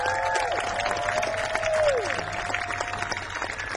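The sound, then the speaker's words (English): Audience applause and cheering at the Falcon Ridge folk festival, held on a farm in Hillsdale, New York: a full, steady wash of clapping from a crowd that eases slightly toward the end. “Let's hear it for Falcon Ridge.”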